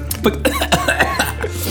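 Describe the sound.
A man coughs and chokes in a rapid run of rough, voiced hacking bursts, irregular and fairly loud, over a steady low hum.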